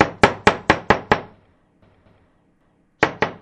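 Knocking on a house door: a loud, rapid run of five sharp knocks, a pause of near silence, then another quick burst of knocks.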